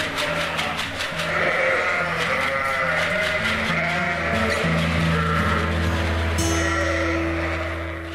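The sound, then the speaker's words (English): Sheep on a farm in County Meath bleat at feeding time for buckets of nuts. Many loud, wavering calls from the flock overlap in a continuous clamour. “That was the reaction there to the buckets of nuts from the sheep on his farm.”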